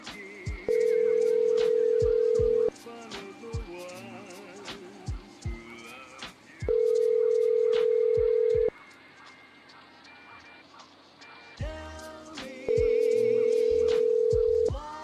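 A telephone call rings out on the line as three long, steady ringing tones of about two seconds each, evenly spaced with quieter stretches of faint clicks and background noise between them.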